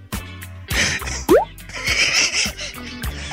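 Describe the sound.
An underwater-style bloop sound effect: a burst of wet plops and drips, with a quick upward-sweeping bloop in the middle and bubbling, gurgling tones after it.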